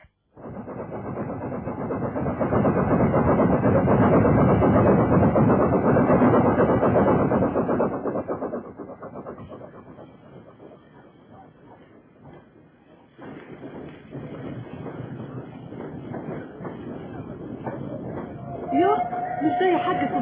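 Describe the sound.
A train at a station in a radio drama: a loud, steady, deep rumble that slowly fades, then a quieter rumbling with murmuring voices, ending with a brief whistle-like tone.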